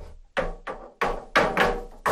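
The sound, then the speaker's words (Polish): A wooden sauna door being slammed shut, heard as several sharp, loud knocks and thuds in quick, uneven succession, each dying away quickly. “Tu są drzwi od sauny, państwo czują to? Zatrzasnę.”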